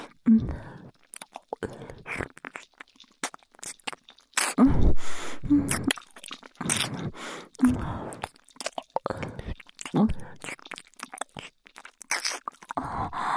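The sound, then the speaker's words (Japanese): Close wet ear-licking and mouth sounds: many irregular smacks, slurps and soft crunchy clicks, some louder and some faint, spread unevenly throughout. “いっぱいお耳舐めて、ご主人様の体全部気持ちよくいたします。”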